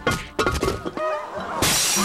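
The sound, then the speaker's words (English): A vase shatters as the maid of honor smashes it at a wedding: sharp crashes of breaking glass with scattered, tinkling shards, ending in a loud burst of noise. “Come on, it's vase breaking time. The maid of honor shatters a vase, and it symbolizes happiness for the bride and groom.”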